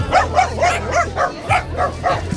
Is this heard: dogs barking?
yes